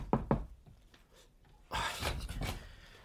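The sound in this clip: Two quick, sharp knocks on a door in close succession, followed after a short pause by a longer stretch of soft, breathy rustling noise.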